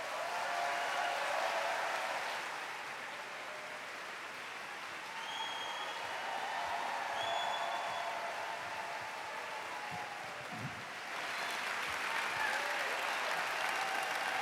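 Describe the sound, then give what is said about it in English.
An audience at a town hall event applauds to welcome speakers onto the stage: dense, sustained clapping for about fourteen seconds that dips slightly in the middle and then swells again. “please give a warm town hall welcome to Eli Sanders and Senator Al Franken.”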